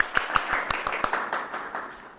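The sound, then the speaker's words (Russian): An audience at a staged discussion event applauds an introduced participant. The patter of claps is moderate and fairly steady, with several sharper individual claps standing out. “Похлопаем.”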